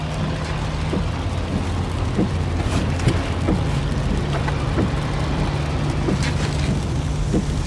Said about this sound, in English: This is the sound of your ride home with dad after he caught you vaping.